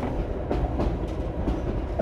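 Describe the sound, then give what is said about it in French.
A train running from Dakar to Bamako, Mali, gives a steady low rumble with a few faint, rhythmic clacks of wheels over the rails. No voices. “De Dakar à Bamako, capitale du Mali, le meilleur moyen de voyager, c'est le train.”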